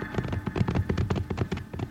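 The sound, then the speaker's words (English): Galloping horses carry a gang riding away from a bank in a Western drama, producing many rapid, regular hoofbeat thuds in a quick rolling rhythm at a moderate level. “see them, Bill. Whole gang of them just riding away from the bank.”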